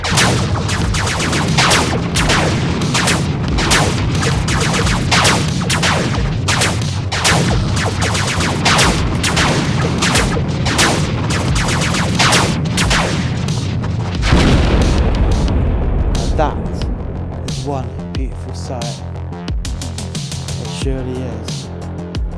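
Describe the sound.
Weapons fire against a ship, a dense, loud barrage of many booming blasts and explosions for about fourteen seconds, then thinning into a lower rumbling tail.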